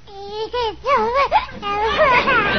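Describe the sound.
Baby girl in a crib making noises: a string of high, wavering coos and whimpers in short bursts with brief gaps, the pitch sliding up and down.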